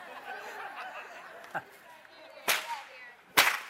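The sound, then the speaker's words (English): A long whip cracks in a few sharp, loud snaps spread over a few seconds, the last two strongest, over a low background murmur. “this is a longer whip. Maybe I better get outside here with this.”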